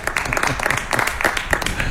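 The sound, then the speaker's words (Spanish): Audience applause at a fair theater show in Peal de Becerro: a dense, steady patter of many hands clapping at an even loudness for the whole stretch. “¡Ole! ¡Un aplauso, señor!”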